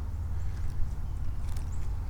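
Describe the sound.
Footsteps crunch across weakening ice that is losing its integrity, a few soft, irregular steps over a low rumble, with no talk.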